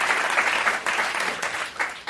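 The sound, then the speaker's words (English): Loud, steady audience applause for Black History Month Pantheon inductees and guests, a dense continuous roar of clapping with slight swells and no talking. “And I also want to have another round of applause for our amazing guests.”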